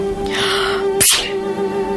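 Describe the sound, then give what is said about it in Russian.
A child sneezes once on a bed in a room: one sharp, breathy burst of noise partway through, set over a steady low tone that runs throughout. “ребенок чихнул”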